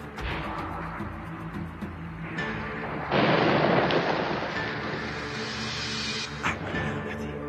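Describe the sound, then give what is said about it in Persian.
Rocket fire and explosions in a war drama: a rushing roar bursts in and holds for a few seconds, then a sharp blast cracks out over a steady rumbling background. “قربون دست دیگه موشک بده، باید جلوشون رو بگیریم.”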